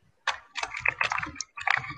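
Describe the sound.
A voice imitates typing on a computer keyboard with quick clicking syllables, delivered in a few short bursts separated by brief pauses.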